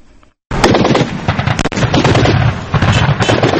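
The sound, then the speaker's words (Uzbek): Rapid bursts of automatic gunfire in the city of Brega, Libya, during fighting between pro- and anti-government forces, a loud, dense crackle of overlapping shots that runs almost without pause after a short quiet start, with no voices. “Brega shahrida eshitilgan otishmalar ovozi edi.”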